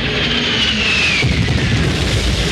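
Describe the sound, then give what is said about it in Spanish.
Jet aircraft roar low over a beach during a bombing run. A loud, constant rumble carries a high whine that falls in pitch, and deep booming explosions sound underneath in the second half. “Los reactores sobrevuelan la playa.”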